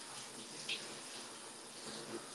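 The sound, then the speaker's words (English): Running water pours in a steady, faint hiss that stays even from start to finish, with no voices over it. “I don't know if they can even hear me over the sound of the water.”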